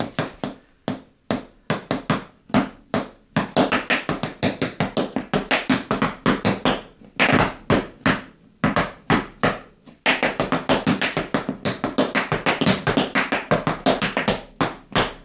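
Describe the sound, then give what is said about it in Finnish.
An amateur tap dancer's shoes strike a hard floor in many crisp, rapid taps, grouped in rhythmic bursts with a couple of short pauses along the way, loud and alone without talk. “Mä olen steppaaja, ainakin en ammatiltani, onneksi koska en olisi kovin hyvä siinä, mutta olen steppaaja vapaa-ajalla. Annas mennä.”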